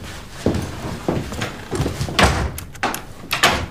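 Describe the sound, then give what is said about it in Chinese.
A door being shut and locked: a series of dull thuds and sharp clicks and rattles at an uneven pace, moderately loud, with no talk. “你锁门干啥呀？”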